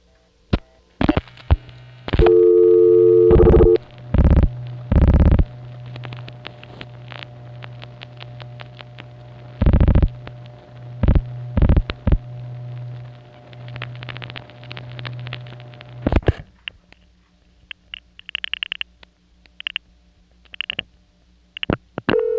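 Supervision handshake and dialing on a 101 ESS PBX, a pulse amplitude modulation telephone switch: sharp clicks and short tone bursts over a steady low line hum, then many quick, higher tone blips and clicks.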